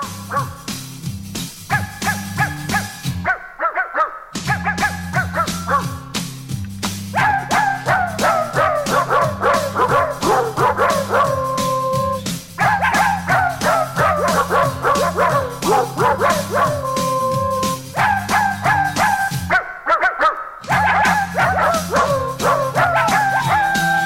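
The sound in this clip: Dog barks, yips and howls are pitched and sequenced into a pop melody over a steady rhythmic music backing, with brief pauses in the line.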